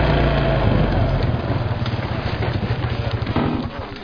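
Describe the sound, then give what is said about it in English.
ATVs ride on a tour with a continuous rumbling engine drone and a rough, rhythmic pulsing texture. The noise stays loud and steady, then eases off toward the end. “these ATVs are more fun than a game of polar bear cricket.”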